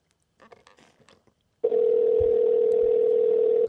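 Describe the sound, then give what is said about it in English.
A ringback tone on an outgoing phone call: a few faint clicks come first, then a loud, steady, mid-pitched tone sounds for about two seconds and stops. “So it rings the Dean, then goes to Paul. It's probably not going to pick up.”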